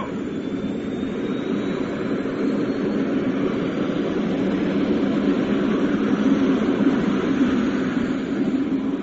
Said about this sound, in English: Ignition. Adjust the throttle. And away we go.